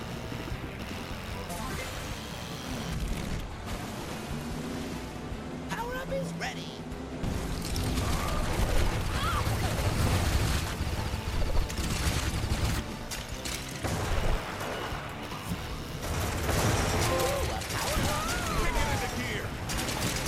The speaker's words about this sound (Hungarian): És ilyen nagyon furcsa repülő szerű járművek ellen versenyzek a kis kvadommal.